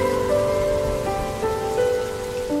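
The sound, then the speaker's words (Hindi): Rain falls steadily in a dense, even patter of water drops striking a surface, with no pauses, and a few sustained tones sit faintly underneath. “आसमान से बरसती ये पानी की बूंदें बादलों का वृत्तांत सुनाती हैं।”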